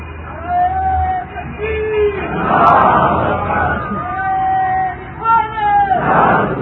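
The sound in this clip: A crowd chants slogans in unison, long held shouted calls alternating with rough bursts of massed voices, loud throughout with short dips between phrases.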